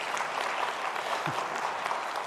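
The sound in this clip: Audience applause in an audience during a Sunday service, a steady dense wash of clapping that holds evenly loud for the full stretch without pause or speech.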